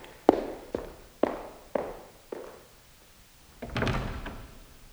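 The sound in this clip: A door is closed quietly rather than slammed: five evenly spaced sharp knocks are followed by a longer, muffled bump and rattle near the end, with no voices.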